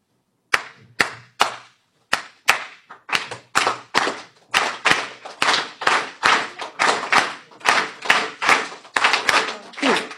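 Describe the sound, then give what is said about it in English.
Cuban clave rhythm clapped by hand: many sharp claps in a steady, repeating syncopated pattern that grows fuller and louder as it continues. “It has this beautiful thing called clave. It sounds like this.”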